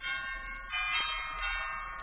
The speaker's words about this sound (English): I walked up to the cottage, rang the bell.